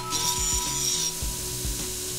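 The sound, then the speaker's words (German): Grinding of a forged knife blade by a smithing team: a steady, bright abrasive hiss with a thin high whine, over low, irregular rhythmic thumps. “Die Profis aus dem Schmiedeteam helfen auch beim Schleifen.”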